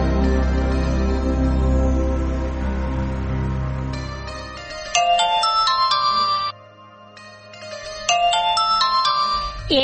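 A telephone ringing with an electronic ringtone: bright, repeating chiming tones in two bursts split by a brief pause, preceded by a lower sustained tone.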